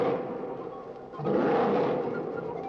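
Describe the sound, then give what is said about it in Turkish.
A mountain lion roaring nearby, a long, rough and breathy growl that swells louder about halfway through and then holds, harsh and sustained with no voices. “Bir ses duydun mu? Evet, duydum. Dağ aslanı, hem de çok yakından geldi.”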